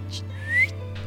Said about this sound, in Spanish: ¿Un chiflido?